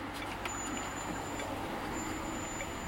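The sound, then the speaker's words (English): Traffic in modern Beijing, a faint, steady rumble of buses, trucks and cars with a thin high whine heard at times. “Today's Beijing sounds like this.”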